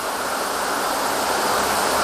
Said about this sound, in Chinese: 考察队由巨大的落水声判断，前方应该是一道洞穴瀑布。